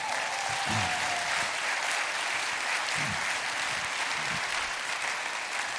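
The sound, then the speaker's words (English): A church audience applauds to welcome new members, a steady, even wash of clapping from many hands that holds for several seconds. “All right, let's give them a hand.”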